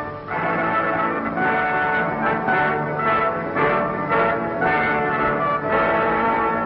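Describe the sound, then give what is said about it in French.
The great bell of the clock tower at Westminster, London, striking the hour: several deep, resonant strokes whose long humming tails overlap one another. “Et quand Big Ben a sonné l'heure que l'Angleterre attendait”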